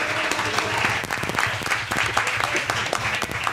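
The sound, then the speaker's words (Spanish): Applause for a man seated at a table: dense, steady clapping that fills the whole stretch at an even level, with voices mixed in underneath. “Nuestro compañero de mesa, el señor Juancar, por favor, un aplauso para él.”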